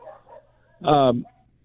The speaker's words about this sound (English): somebody's walking in front of my house. Oh yeah, your dog's got to let you know they're not allowed to walk out in front of your house.